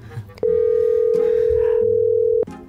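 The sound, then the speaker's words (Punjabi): Telephone dial tone heard while calling a casting director: a single steady, unbroken tone of about two seconds that starts and stops abruptly, with faint background sounds before and after. “ਇੱਕ minute ਜੀ ਆਪਾਂ casting director ਨੂੰ ਕਾਲ ਕਰਦੇ ਆ ਆਪਾਂ ਕਰ ਲੈਣਾ”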